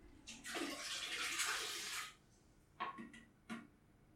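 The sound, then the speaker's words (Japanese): A toilet flushes with a loud, rushing surge of water that lasts about two seconds and then cuts off, followed by two short, fainter knocks. “ちょっとトイレに流します。”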